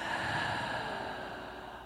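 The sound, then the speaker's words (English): A single long, deep breath drawn in through the nose and let out through the mouth, a steady airy rush lasting nearly two seconds that slowly fades. “take a deep breath in through the nose and let it out through your mouth.”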